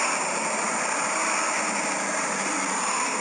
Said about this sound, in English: this probably sounds like shit because of that highway noise